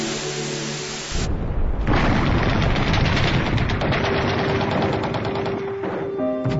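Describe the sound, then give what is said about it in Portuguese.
Bombs explode and missiles launch in a television news report, heard as loud, rapid bursts like gunfire and blasts. A quieter opening gives way to a dense, unbroken barrage. “O canal televisivo mostra bombas explodindo, mísseis sendo lançados e centenas de corpos pelo chão.”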